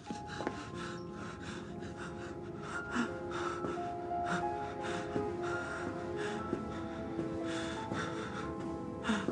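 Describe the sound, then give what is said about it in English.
Rapid, ragged breathing and sobbing from a bloodied man making his way down a corridor: many quick gasps and snuffles in uneven succession over a steady tonal background. “Covered in blood, Jimmy breathes rapidly, then makes his way down the corridor, sobbing.”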